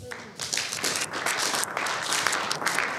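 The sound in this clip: An audience claps to welcome a speaker: a fairly faint, steady wash of many hands that holds evenly throughout.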